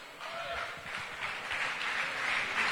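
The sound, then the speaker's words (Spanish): An audience applauds during a preacher's sermon, a steady, sustained wash of dense clapping held at a moderate, even level throughout. “Si va a aplaudir, hágalo bien.”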